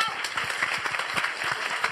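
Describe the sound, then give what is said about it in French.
Audience applause fills the whole two seconds as a dense, steady clatter of many hands clapping at an even, moderately loud level. “Tout le monde peut applaudir, ça serait pas mal.”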